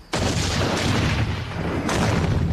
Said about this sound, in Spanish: es inútil que finjas que esos ruidos los haces tú. Tu licor casero ha vuelto a explotar.